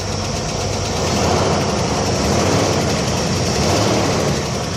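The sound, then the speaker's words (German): Steady engine drone and road rumble from a car driving south out of Marrakesh, Morocco, a continuous, even roar with low throbbing and broad hiss and no voices throughout. “Wir fahren von Marrakesch Richtung Süden.”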